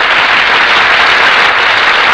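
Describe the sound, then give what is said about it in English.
Loud, dense applause from a studio audience greeting radio drama stars as they walk onstage, a thick, unbroken roar of clapping that holds steady throughout. “That applause, ladies and gentlemen, is for our stars who have just entered from the wings.”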